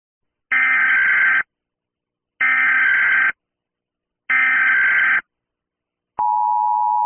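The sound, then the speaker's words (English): United States Emergency Alert System alert tone: three loud, harsh, buzzy bursts of about one second each, separated by short silences, followed by a steady, sustained single alert tone. “This is the Emergency Alert System, or EAS. So this is a more modern sound. I believe every country has their own version of EAS. This is the United States version.”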